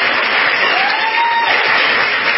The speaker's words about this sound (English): please give Bill a big round of applause for the great introduction and the great work he's done